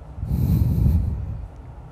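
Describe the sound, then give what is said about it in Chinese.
A single loud, steady breath drawn through the nose as part of a calming nose-breathing exercise, a low rushing airflow lasting about a second before it tapers off. “这个鼻呼吸的练习，可以在平常运动的时候，或是啊散步的时候，做任何事情的时候，可以加入你的生活当中”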